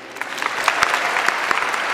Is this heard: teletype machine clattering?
no